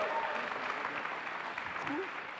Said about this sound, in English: Come on, show your appreciation once again for these guys.